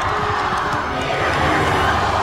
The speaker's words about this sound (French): Lorsque le dauphin entre dans la ville, il est acclamé par la foule.